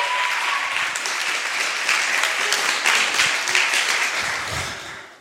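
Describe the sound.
Audience applause welcoming a returning speaker in London: dense, steady clapping holds at an even level for about five seconds before tapering off at the very end.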